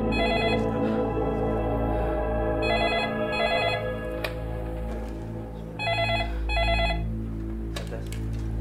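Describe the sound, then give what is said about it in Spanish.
A telephone rings with an incoming call: several bright, trilling ring bursts, mostly in pairs with pauses between them, over a steady low background drone and with no talk. “Luego de varias horas de tensa espera, la familia Dinis recibe otra llamada.”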